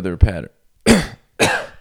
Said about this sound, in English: why I coughed